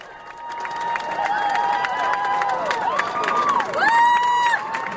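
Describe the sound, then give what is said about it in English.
A huge crowd on the Supreme Court steps cheers the lawyers and plaintiffs from the DOMA case: loud sustained cheering and clapping, threaded with shrill shouts and whistles, swelling louder toward the end. “It's the sound of a huge crowd cheering the lawyers and plaintiffs from the DOMA case as they all walk down the steps of the Supreme Court, and you hear them chanting thank you and USA near the end of that.”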